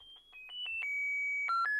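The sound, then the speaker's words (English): A Jitterbug mobile phone plays an unexpected electronic tune. A short run of pitched beeps steps between notes and leads into longer sustained tones. “it plays music. I'm sorry, I didn't know I had that on. My phone is a jitterbug, just like the communicator, and when I call in, it does random things.”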